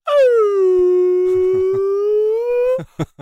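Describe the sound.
A person's voice imitates a whale call: one long, sustained moaning tone that slides down at first, holds low and level, then rises slightly before cutting off.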